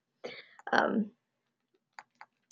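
Three soft taps on a phone screen come near the end, quick and light, after a short vocal noise at the start; the rest is near silence.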